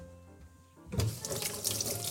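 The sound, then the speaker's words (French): Tap water is turned on and runs steadily into a sink while a shallot and citrus fruits are rinsed. After a quiet start, a bright, rushing, splashing stream begins and continues to the end. “Cette échalote, je vais la rincer. Je vais également rincer mes agrumes.”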